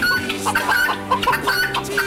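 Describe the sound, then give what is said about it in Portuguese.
Chickens being fed corn cluck busily, a dense, fairly loud run of short, overlapping mid-pitched clucks and squawks. “Milho para as galinhas”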